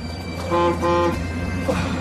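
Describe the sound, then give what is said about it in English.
A local bus on a village street sounds its horn in two short, tonal honks, one right after the other, over a continuous low rumble. “Certainly wasn't expecting the local bus to be running. Looks like it's heading for the far end of the street.”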